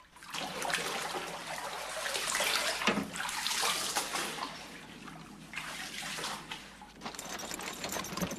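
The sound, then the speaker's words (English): Someone wading through ankle-deep water below deck on a flooded ship, with pans, books and tins floating around them, heard as several irregular sloshing and swishing surges of water that swell and fade. “He's ankle deep in water, which has pans, books, tins, and various of the ship's contents floating around in it. John wades through.”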